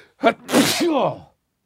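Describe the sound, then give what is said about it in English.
A single human sneeze opens with a short, sharp intake of breath and bursts into a loud, breathy spray. It trails off into a wavering voiced tail before falling silent. “I'm going to sneeze.”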